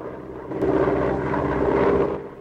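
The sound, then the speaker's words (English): A plane flying close to cliffs makes a steady, droning engine roar. It swells louder after the first half second, holds evenly, then eases slightly at the end. “The plane continues on its way, keeping close to the cliffs.”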